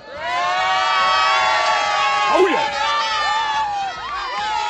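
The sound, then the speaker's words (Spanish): Girona football fans cheering and chanting together after the match that sent their club up to the Primera División, a loud, sustained crowd roar with sung, wavering voices and a few shouts. “las palabras de los aficionados del Girona, que si quieres, aquí tienes cómo animan desde que ha acabado el partido.”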